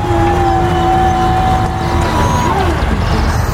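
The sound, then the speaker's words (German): Engine of a vehicle with a shovel lever running as it is put into first gear and drives off, a continuous loud droning hum with steady whining tones that dip slightly near the end. “Ich mach mal den ersten Gang rein. Es klappt. Wir fahren.”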